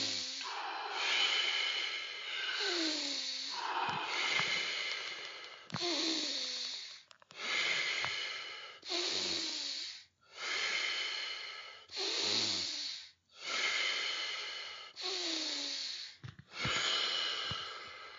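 Deep Wim Hof method breathing, with full, forceful inhales and relaxed, letting-go exhales repeating in a long, steady rhythm of many breath cycles, each separated by a short dip.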